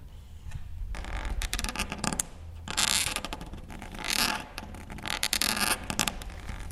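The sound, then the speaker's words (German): A quill pen scratches across paper as someone writes in ink with firm pressure, making rough, scratchy scraping strokes in uneven bursts separated by brief pauses, with no talking. “gibt ziemlich Druck auf den Federkiel. Man muss einen gewissen Druck geben und ziemlich weit vorne die Federn haben, damit es ja, die Tinte schön läuft.”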